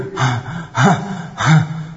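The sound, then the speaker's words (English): A voice imitates the hard, panting breath of someone running away in fear, trembling: three loud, rasping gasps in an even rhythm, each carrying a low, wavering voiced tone. “he's breathing very hard as he's running away”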